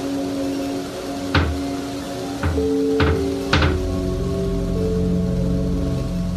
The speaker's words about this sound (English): she decides to lock the doll in a cabinet.